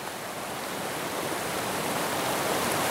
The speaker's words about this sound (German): Der Fluss läuft hier auf diesen Felsen zu.